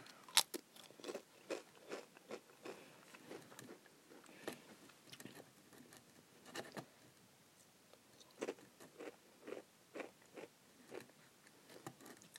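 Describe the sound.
Crunchy pizza- and basil-flavoured snacks being eaten, with many quiet, crisp bites and chewing crunches in irregular bursts separated by near-silent pauses.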